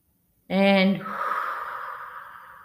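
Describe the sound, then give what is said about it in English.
A deep breath taken during a guided calming exercise, starting abruptly with a short voiced onset and then easing into a long, steady breathy rush that slowly fades. “Just take a deep breath. And again.”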